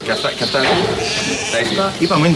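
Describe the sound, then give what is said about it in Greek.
Sheep bleating on a dairy sheep farm, a few wavering calls rising over steady talk from several people throughout. “Και αυτά είναι. Είπαμε είναι τα πρόβατα.”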